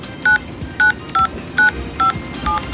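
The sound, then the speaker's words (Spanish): Six short, evenly spaced telephone keypad DTMF tones sound as a phone number is entered on a voicemail retrieval line, over a low background hiss. “Ingrese el número del cual desea recuperar el mensaje. Exactamente, ingresa el número de la persona que ha dejado el mensaje. Anteponiendo el código de ciudad.”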